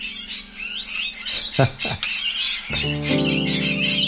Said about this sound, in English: And that is the sound of some lorikeets.